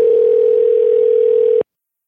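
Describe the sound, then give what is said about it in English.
A telephone dial tone as a call to an 800 number is placed: a single steady, unwavering tone held for about a second and a half, then cut off abruptly into silence. “But today on the podcast, we're going to call that number and see who answers here in the year 2021. Wow. The number, it's an actual 800 number, and we're going to find out if it's still active.”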